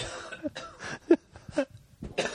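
A few throaty coughs and throat-clearing bursts from a pipe smoker, short rough blasts separated by quieter gaps, with no talk.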